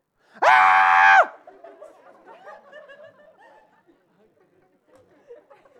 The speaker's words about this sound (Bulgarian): Ако аз сега започна да крещя